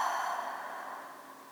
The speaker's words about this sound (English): Sitting up nice and tall, take a few deep breaths with me. Inhale. Exhale.